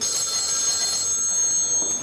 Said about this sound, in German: Und ständig geht das Telefon.